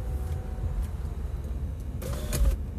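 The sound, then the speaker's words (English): Low, steady engine and road rumble from inside a car driving to work, with a few faint clicks and a short whine toward the end. “I'm currently recording this right from my car as I am driving to work.”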